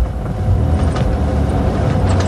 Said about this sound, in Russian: Какая-то машина тяжело пыхтя брала подъем высокого холма.